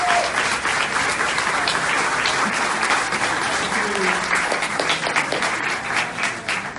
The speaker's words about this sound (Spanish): Esto es excelente, así que un aplauso.